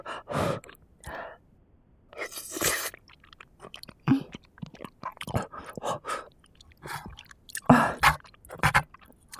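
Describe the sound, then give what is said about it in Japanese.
Wet chewing and crunching of hot food, with irregular bites and breathy sighs and gasps between the mouthfuls, moderately loud and heard alone. “熱っ。でも美味しいから、どんどん口に運んじゃう。”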